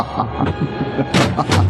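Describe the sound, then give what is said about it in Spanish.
A door violently smashed in by intruders in a dramatized scene: a few heavy, booming thuds and crashing impacts over a low rumble, the loudest blows landing near the end. “Los criminales irrumpen violentamente, destrozando la puerta.”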